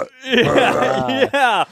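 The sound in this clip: A human voice imitates a bull's heavy breathing grunt with a low, throaty, voiced rumble, then a shorter second burst after a brief break.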